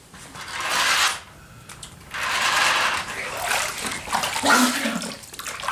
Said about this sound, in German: Ich habe mich beim Waschen an die Nase gestoßen.